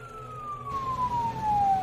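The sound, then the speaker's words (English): An ambulance siren sounds as the vehicle drives along an empty highway: a loud, sustained tone that slowly falls in pitch over a low rumble of road and engine noise. “An ambulance drives along an empty highway.”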